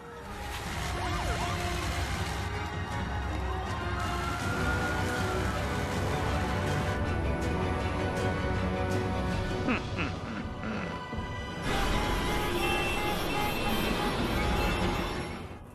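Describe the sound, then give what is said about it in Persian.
Heavy road traffic makes a steady, dense roar of engines that runs throughout, with a siren wailing through the din. “ترافیک زیاده، نمیشه دور زد.”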